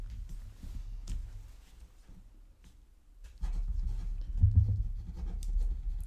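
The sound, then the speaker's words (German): A pen scratches across a sheet of paper as words are written into its four fields, a faint, irregular scratching with brief pauses over a low background rumble. “Und vielleicht kannst du mal ganz spontan in jedem Feld einen Begriff reinschreiben, den du assoziierst mit folgendem Begriff. Dein Körper.”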